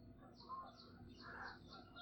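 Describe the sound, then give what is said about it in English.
Canada geese fly overhead, giving a few faint, short nasal honks spread across a quiet background. “Some Canada geese flying overhead.”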